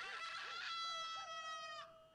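A rooster crows once in a long, tonal, harmonic call that holds steady before cutting off; the crow is fairly faint and heard alone without talk.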